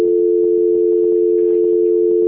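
A telephone tone sounds after a call is cut off: one loud, steady hum at a single pitch that holds unbroken for just over two seconds.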